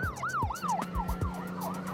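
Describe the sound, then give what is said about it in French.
An ambulance siren wails in a fast, repeating up-and-down sweep while rushing a child urgently to a children's hospital, loud and steady, with a low engine rumble beneath. “Une ambulance le conduit de toute urgence à l'hôpital pour enfants.”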